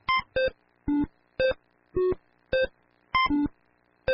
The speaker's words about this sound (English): This is the sound of Breakout, a 1980s computer game. It's being played by an artificial intelligence system.